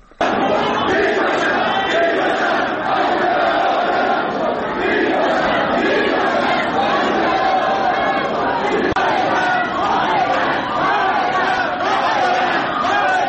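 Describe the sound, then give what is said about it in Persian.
Protesters chant anti-government slogans at a funeral procession in Behesht Zahra cemetery. The loud, dense mass of voices keeps shouting steadily from start to finish. “اما بامداد امروز تشییع پیکر یکی از کشته شدگان برگزار شد در بهشت زهرا که در اون معترضان شعارهای ضد حکومتی سر دادن.”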